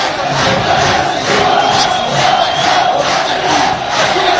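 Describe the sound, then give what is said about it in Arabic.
A football crowd at Zarzis stadium roars after a goal, a loud, dense, sustained wash of cheering and shouting that holds steady with slight swells throughout. “هدف مقابل صفر تتغير النتيجة والجماهير الحاضرة في ملعب جرجيس تتفاعل مع الهدف في انتظار الأهداف.”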